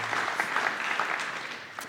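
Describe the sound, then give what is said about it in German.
Applause from a group thanking people for a long-running project, a brief burst of steady, fairly dense clapping. “ein Applaus, ja, ein Dankeschön, dass dieses Projekt dann so lange gelaufen ist”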